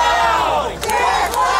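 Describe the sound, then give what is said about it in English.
Employees chant at a street protest in Los Angeles. A loud crowd shouts in unison, with a brief dip in the middle before the chanting swells again. “What you're hearing there is the sound of Netflix employees protesting the special on the streets of LA.”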